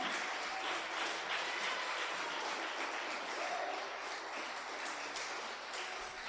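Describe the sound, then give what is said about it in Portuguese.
A church audience applauds during a service, a faint, even wash of clapping that stays steady throughout with no voices. “Pode aplaudir o Senhor.”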